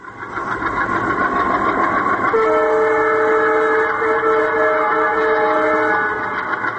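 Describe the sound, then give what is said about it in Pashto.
A train rumbles steadily and loudly throughout. A sustained, multi-toned horn sounds partway through and holds almost to the end. “یو تفصیلي رپورټ لري چې د اورګاډي په ژغ سره پیلېږي”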